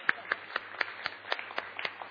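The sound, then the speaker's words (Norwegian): Rhythmic clapping from an audience honoring the men who served at a women's gathering, a steady beat of sharp, evenly spaced claps over a low background hum. “Skal vi klappe for mennene?”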